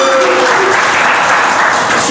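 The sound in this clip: A brief, loud burst of audience applause at a hip-hop interview event, dense and continuous clapping that fills the short moment at an even level.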